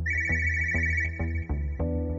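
A telephone rings with a steady electronic ringtone: a loud, sustained bright tone with regular short pulses running through it. It sounds alone, with no talk.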